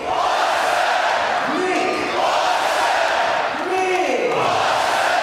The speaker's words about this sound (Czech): a teď ho zase Budvar Arena, tady diváci oslaví jméno úspěšného střelce.